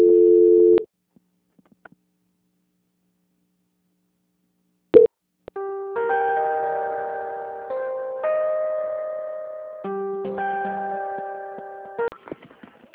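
Telephone line tones while a call is being transferred: a short steady tone, a click and a few soft ticks, then sustained electronic tones that shift pitch several times, with no talking.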